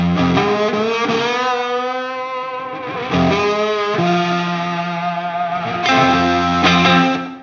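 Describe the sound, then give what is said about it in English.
A National resonator guitar with a Curtis Novak pancake pickup played through a cranked Marshall into a 4x12 cabinet, low end cut: a few loud, heavily distorted chords ring out with long, rich sustain. “So, again, what kind of pickup is that? It's a Curtis Novak pancake pickup.”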